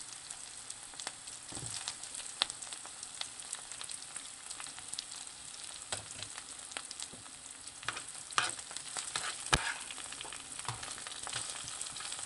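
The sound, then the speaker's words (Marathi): Onions frying in a pan with green chillies added, giving a steady, soft sizzle and crackle with scattered sharp pops. No voices. “कांदा परततानाच आपण हिरव्या मिरच्या घालूया।”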